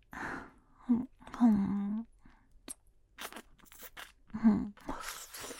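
A small thumb-sized snack is eaten, with soft crunching and chewing bites scattered among a few faint, low voiced hums, everything quiet and close.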